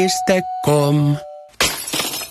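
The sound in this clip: Glass breaking as a sound effect in a windshield repair advert. A sudden crash of shattering glass bursts in partway through, following a few brief tonal sounds.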